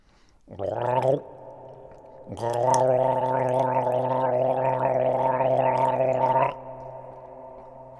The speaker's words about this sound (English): Now what they do is they flap their epiglottis. Now the best way to explain this is to gargle.